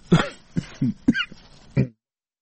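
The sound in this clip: A run of coughs: several short, hoarse bursts come in an uneven series, one after another, with brief pauses between them. A final cough follows after a slightly longer gap.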